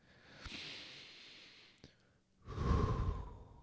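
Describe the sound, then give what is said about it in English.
Deep breath taken during a guided meditation: a soft, airy breath in, a short pause, then a louder, longer breath out, heard alone without talk. “So take a breath with me.”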